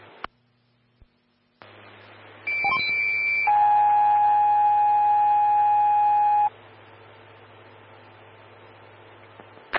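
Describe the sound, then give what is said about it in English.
Fire dispatch alert tones for a motor vehicle collision call: a shorter high tone followed by a long, steady lower tone, loud and unbroken for about four seconds, set between stretches of quiet radio hiss with a few faint clicks. “Stand by for tones on a motor vehicle collision.”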